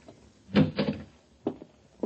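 A key working a locked door's easy lock and the door opening: a double clack and clunk, then two short, separate clicks, fairly quiet with no voices.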